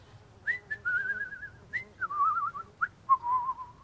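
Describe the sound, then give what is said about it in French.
A person contentedly whistles a light tune, with wavering, warbling notes and brief upward flicks between held phrases, heard alone over faint background noise. “Je me suis mis à siffloter, comme ça, l'air tout content.”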